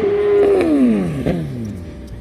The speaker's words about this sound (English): Here comes the bike again.